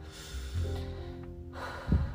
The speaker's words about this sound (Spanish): Te voy a pedir que cierres tus ojos, que tomes una respiración súper profunda,